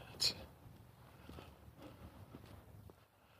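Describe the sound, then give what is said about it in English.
Footsteps of a person walking slowly outdoors in cold weather, around the upper 20s, with a few faint, soft, unhurried steps spaced across the stretch over a quiet background. “I'm not walking very fast today. I'm walking.”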